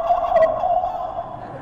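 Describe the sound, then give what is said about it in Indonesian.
A chicken calls once in a brief, warbling burst that wavers in pitch and stands alone without talk. “Ayam sudah bangun, membangunkan orang Islam.”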